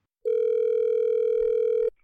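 A single long, steady, loud telephone ringing tone when calling a police station, holding one even pitch for about a second and a half before cutting off, with nothing else around it.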